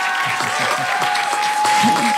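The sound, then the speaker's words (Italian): Audience applause in a radio studio setting: a brief, steady burst of clapping with people talking over it. “Un applauso a Mario Volanti, possiamo...”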